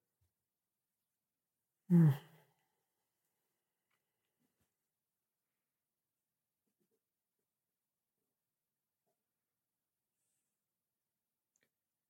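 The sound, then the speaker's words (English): A single deep breath during a group's moment of silence: one brief, soft airy exhale, then long unbroken quiet. “Let's take a good deep breath.”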